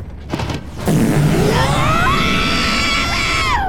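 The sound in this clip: A cartoon spaceship shifts into fifth gear and takes off. A low rumble gives way to a sudden surge into a loud, steady roar, with whining tones that climb in pitch.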